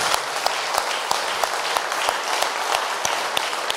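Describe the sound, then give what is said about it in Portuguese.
A church audience claps during a service, a dense and loud burst of applause with a steady, rhythmic beat as the clapping falls into time throughout. “Palmas para Jesus.”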